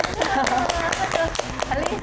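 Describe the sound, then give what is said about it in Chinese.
Applause on a talk show, several steady, rhythmic hand claps while people talk over them. “要给他掌声鼓励一下。”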